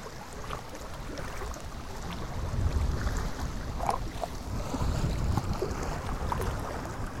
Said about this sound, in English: This is the sound of Lake Ontario, Toronto, Canada